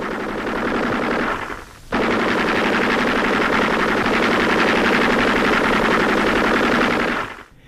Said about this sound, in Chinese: 敌人也开始疯狂的射击